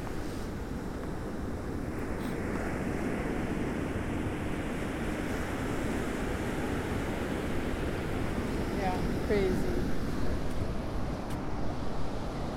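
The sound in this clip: Ocean waves wash onto the shore at sunset in a continuous, even rush of surf mixed with wind noise, with no distinct breaks, holding a fairly steady low level throughout.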